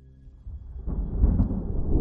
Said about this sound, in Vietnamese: Vừa dứt lời thì tiếng sấm ở đâu đì đùng đánh cho dòng nước hai bên cầu sôi lên ùn ụt.